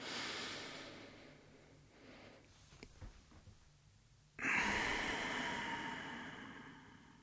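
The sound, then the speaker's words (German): Deep belly breathing in a guided breathing exercise: a slow, faint inhale followed by a sudden louder, airy exhale that gradually fades away. “Atme noch einmal tief ein und tief aus durch den Bauch, in den Bauch.”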